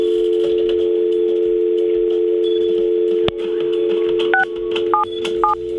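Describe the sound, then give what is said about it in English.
Touch-tone telephone dialing sounds over a continuous dial tone that never drops out. A steady tone and one sharp click come first, then three short dual-tone beeps near the end, with no voices. “I can hear you dialing. Yeah, it just dials, but it never gets rid of the dial tone.”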